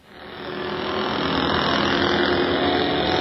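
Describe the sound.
An auto-rickshaw engine starting up, its loudness building over the first second, then settling into a steady, buzzing idle with a constant hum.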